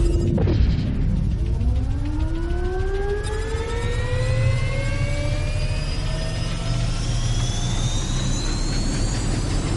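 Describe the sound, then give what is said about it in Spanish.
A turbine starts up behind a captive, its whine climbing steadily in pitch as several tonal bands rise together over a broad, constant roar, opening with a short burst of noise. “Él acciona un panel. Una turbina tras ella se pone en marcha.”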